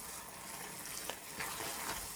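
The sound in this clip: Risotto made with rice and white wine being stirred in a pan gives a quiet, wet scraping and gentle sizzle, with a few faint taps of the spoon.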